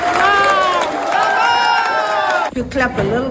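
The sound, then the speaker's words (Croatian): Colleagues cheering in excitement, loud overlapping high-pitched shouts and whoops from a group that hold strong for a couple of seconds before breaking off briefly and resuming. “Budete li i dalje pljeskali, mogla bih podijeliti ovu nagradu s Trumpom.”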